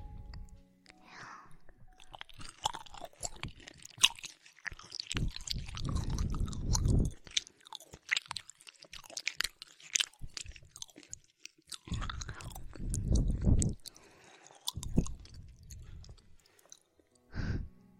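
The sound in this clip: Someone chewing and crunching through a home-cooked meal, with moist, uneven bursts of mastication that come and go, separated by quieter gaps with soft breathy sounds.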